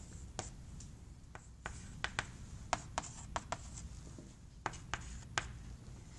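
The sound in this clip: Handwriting strokes as someone writes by hand, many short, scratchy marks in an irregular rhythm, quiet over a soft steady background hiss.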